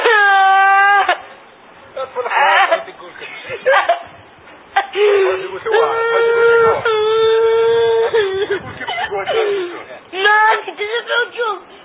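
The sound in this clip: A male goat bleating: a series of wavering, nasal calls separated by short gaps, some drawn out and shaky, others brief, fairly loud throughout.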